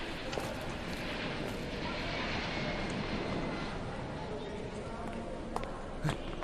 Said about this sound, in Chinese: 快来看，停机坪上两架波音737-800， 还铺了红毯，好像是专机呀